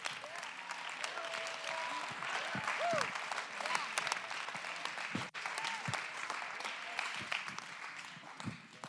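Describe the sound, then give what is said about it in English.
Congregation clapping their hands in praise during a church sermon, a continuous, brisk crackle of many hands, with voices calling out faintly under the clapping. “Somebody clap your hands and give God the praise.”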